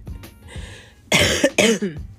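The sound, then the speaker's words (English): Two harsh, loud coughs burst out back to back near the end, each a broad rasping blast with a throaty tail, after a stretch of faint low rumble. “excuse me. I was trying to stifle that cough. I was so focused on trying not to cough.”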